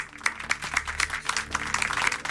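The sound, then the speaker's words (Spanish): Audience applause made of distinct, uneven claps rather than a dense roar, rising and dipping in loudness as scattered hands keep clapping. “¡Un aplauso! ¡Bravo!”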